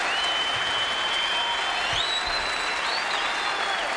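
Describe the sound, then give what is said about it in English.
An audience applauds a jazz quartet with steady, dense clapping that fills the whole clip, a few whistles rising above it. “I love the audience noise.”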